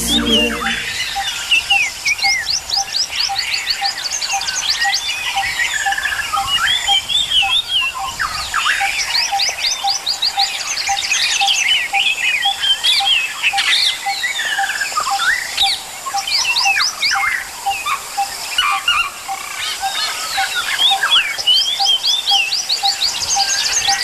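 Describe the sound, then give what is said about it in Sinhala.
Many birds sing at once, dense chirps, whistles and quick trills overlapping throughout, with a steady, regular ticking pulse running underneath the whole time. “මේ කුරුළු ගීත අහන්නයි අපි වඩා කැමති කියලා. ඒ හින්දා කුරුළු ගීත වලට වැඩි තැන දෙන්න වෙනවා.”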